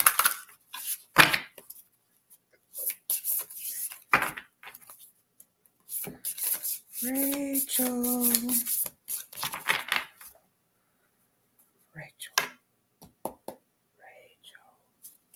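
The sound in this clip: Oracle card deck being handled as a card is drawn: crisp snaps and rustling bursts separated by quiet, with a brief hummed voice in the middle.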